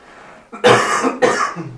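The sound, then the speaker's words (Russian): A person coughs twice, two harsh, throaty bursts after a faint breathy lead-in, loud and with no other sound. “Я тоже могу покашливать.”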